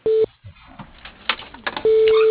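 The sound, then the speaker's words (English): Telephone line tones sound as a call is transferred to a voicemail box: a short steady beep, then line noise with brief clicks, then a longer steady electronic tone. “He's not answering, so I'd be happy to put you into his voicemail.”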